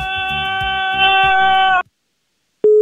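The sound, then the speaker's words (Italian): A telephone tone sounds after a caller to a radio show hangs up. A steady harmonic hum cuts off abruptly, then comes a short silence, and a single loud pure tone begins near the end. “Ma perché buttano giù? Io non capisco.”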